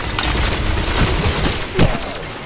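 Video game combat in Destiny 2: a dense, loud wash of crackling gunfire and blast noise fills the whole stretch, with one sharper burst standing out near the end.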